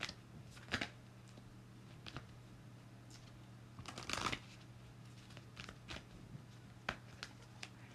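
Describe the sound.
Tarot cards being handled from the deck during a reading: faint papery rustles and light ticks at uneven intervals, with a slightly longer shuffling burst near the middle and no talk.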